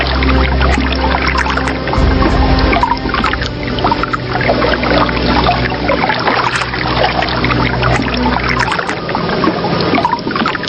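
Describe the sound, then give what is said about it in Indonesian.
River water flows under a bridge in a dense, steady rushing wash with a low rumble beneath it, loud and continuous throughout, no voices. “swara gemericik kali karo jangkrik”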